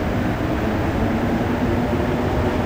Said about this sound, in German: Dass die Metro in Montreal so leise dahin gleitet, hat mit ihren Reifen zu tun. Keine Stahlräder, sondern Gummireifen.